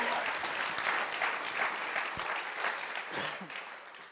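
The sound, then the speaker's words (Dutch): A church audience applauds during a bilingual service, a dense, steady clatter of many hands that holds for several seconds and thins slightly at the end. “Why don't we give Pastor Charissa? Laten we Pastor Charissa een applaus geven.”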